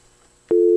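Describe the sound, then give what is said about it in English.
A telephone busy signal follows a dropped call-in, with faint hiss giving way to a loud, steady, mid-pitched tone that holds to the end. “Oh, Lord. Lost that one. All right, Sister Pat, you could call us back. We lost you somewhere on the line there.”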